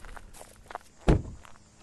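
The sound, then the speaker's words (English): Footsteps of people walking through a small wooded area near a marshland lake: a few soft, scuffing steps, then one heavier, louder thud, over quiet outdoor background. “we're walking through a little woodsy area to where?”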